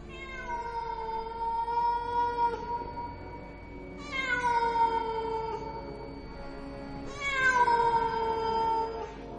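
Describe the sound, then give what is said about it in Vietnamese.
Cats yowl in long, wailing cries like crying children, three drawn-out calls in a row, each starting with a sharp onset and sliding slightly lower as it fades. The calls are loud and rich with harmonics, and no voices are heard. “Vừa mới chạy liền nghe thấy phía sau vang lên tiếng mèo, giống như tiếng trẻ con khóc nỉ non, hết đợt này đến đợt khác, tạo thành những âm thanh vô cùng đáng sợ.”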